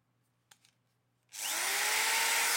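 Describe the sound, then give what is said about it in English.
Electric screwdriver with a clutch driving a screw into wood: a few faint taps, then the motor spins up into a loud, steady, high whirring that runs to the end. “Screwdriver. So when you do the touch, you know, that's enough to start driving the screw down into the wood”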